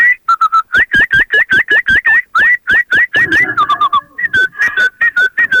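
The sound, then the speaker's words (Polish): Common blackbirds singing outdoors: loud, clear fluty whistled notes repeated many times in quick, regular phrases, some rising and falling in pitch, with no talk over them. “a teraz wyszedłem i śpiewają u nas kosy.”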